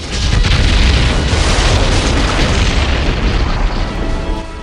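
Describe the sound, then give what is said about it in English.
Missiles on the ground explode in a chain reaction at a storage facility, heard as a loud, continuous rumbling roar of blasts that holds steady throughout without clear breaks between the explosions. “The missiles on the ground explode in a chain reaction.”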